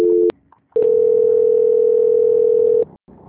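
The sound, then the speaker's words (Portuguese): Telephone line tone while a call is transferred to an extension: a brief two-pitch beep, a short gap, then a loud, steady mid-pitched tone held for about two seconds before it cuts off. “vou fazer então a transferência do ramal, tá? Tá, liga no meu ramal agora. Transferência.”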